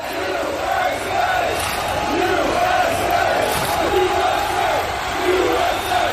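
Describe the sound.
Supporters in Seattle singing a very simple football chant: a massed crowd voice repeating short melodic phrases at steady volume over a constant background roar.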